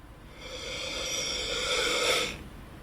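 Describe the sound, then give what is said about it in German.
One slow, deep inhale through the nose, a soft airy hiss that swells steadily for about two seconds with a faint whistling tone, then stops abruptly. No talk. “Nochmal tief durch die Nase ein.”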